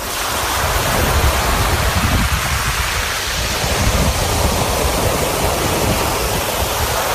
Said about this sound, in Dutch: Ja, het geluid van je jeugd. En dan is de vraag natuurlijk van, klonk het zo? Want dit is wel echt een heftige storm, volgens mij.